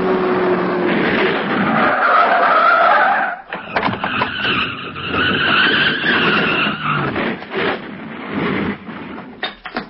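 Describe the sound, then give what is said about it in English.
Tires squeal and skid beneath a roaring car engine as one car rams another, which has a flat tire, off the road; the screeching stays loud and continuous, with only a brief dip partway through. “I'm going to ram them off the road. They won't get far with their flat tire.”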